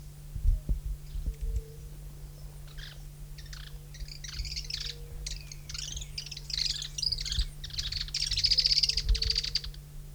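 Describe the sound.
Several birds chirp and tweet in quick, high-pitched bursts that grow denser toward the end, with a steady low hum running underneath throughout.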